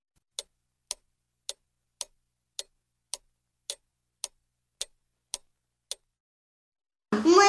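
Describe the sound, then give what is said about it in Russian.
Steady ticking of a large clock, eleven sharp, evenly spaced ticks about half a second apart, then a sudden loud burst of rich tonal sound as the clock begins to play at the very end. “Подошла к большим часам, и они заиграли чуть-чуть громче.”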